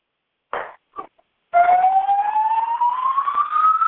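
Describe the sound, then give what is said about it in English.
A building fire alarm sounds as a loud, continuous electronic tone that starts abruptly and climbs slowly in pitch. A few brief, fainter sounds come before it. “I'm sorry, the fire alarm is off and I can't turn the noise off.”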